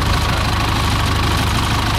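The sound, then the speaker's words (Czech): Engine of an old Zetor tractor towing an aircraft to an aviation museum: a loud, steady, low chugging run with a fast, regular knocking pulse throughout, and no voices. “Poslední desítky metrů obstarává postarší traktor Zetor, který Albatrose odtáhne do areálu Leteckého muzea ve Kbelích na jeho nové místo.”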